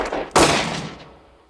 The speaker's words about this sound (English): Sutherland turned the lights off just long enough to shoot Kurgo, who falls to the floor.